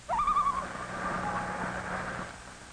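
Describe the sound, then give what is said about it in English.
A loon calls as it takes off from its nest among cattails. The call is a single clear, wavering wail that rises sharply at the start and then holds a steady pitch, over a low background rumble. “Listen to the call of the loon.”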